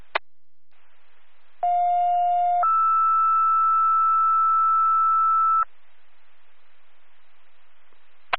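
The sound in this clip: Two-tone pager alert from an emergency dispatch calling out first responders: a steady lower tone for about a second, then a longer, higher tone for about three seconds, over faint radio hiss, with a click at each end.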